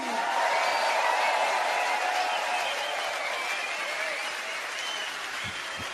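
Concert audience at the Africa Festival applauds and cheers as band members are introduced, steady sustained clapping with scattered whoops that eases slightly toward the end.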